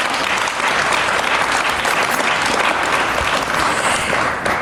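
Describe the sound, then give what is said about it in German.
An audience at a speech to colleagues about the welfare state bursts into applause. The clapping is dense and loud and stays steady for nearly five seconds before easing slightly at the end. “Applaus”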